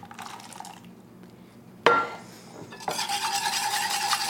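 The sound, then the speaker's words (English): Whisking eggs into warm cream for Thanksgiving potatoes: a soft scraping stir, then a sharp clink, then steady, fairly loud brisk whisking that fills the last part. “Whisk, whisk, whisk.”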